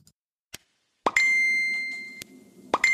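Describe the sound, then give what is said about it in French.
A notification chime rings out: a soft plop, then a bright, high ding that sustains and slowly fades. Another plop and the start of a second ding follow at the end. “Non, ne t'inquiète pas, c'est pas chez toi que ça sonne, c'est ici.”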